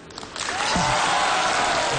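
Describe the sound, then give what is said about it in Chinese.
Audience applause at a Lunar New Year stage show swells from a thin start into a full, sustained wave of clapping that stays steady to the end. “谢谢，谢谢大家这么热烈的掌声。当然了，掌声再热一点就更好”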